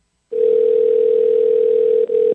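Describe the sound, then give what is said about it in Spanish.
Ringback tone of an outgoing telephone call: a single steady, low-pitched electronic tone lasting about two seconds, with a brief dropout near its end. It plays on its own with no talk. “Está sonando ahora sí. Ok, vamos a ver si nos contesta.”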